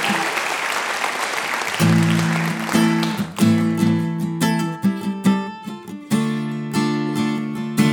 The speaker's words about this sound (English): Logan Smith, let's give him a big hand.